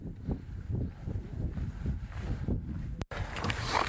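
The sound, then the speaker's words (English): Gusty wind roars as a steady, loud low rumble with uneven surges, briefly dropping out for a moment near the end. “Yeah, it's a little windy, too.”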